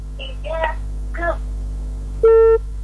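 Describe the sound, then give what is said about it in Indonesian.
A caller's line drops on a radio call-in show: brief speech fragments fade, then a single steady electronic beep tone sounds for a moment before stopping. “Terputus, dicoba kembali, pendengar.”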